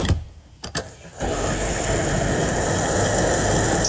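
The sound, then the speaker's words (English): A fuel pump at a gas station starting up for a refill: a couple of sharp clicks, then a loud, steady whirring motor hum that runs evenly to the end. “to kickstart the pump, all you got to say is the magic words. Let's pump it.”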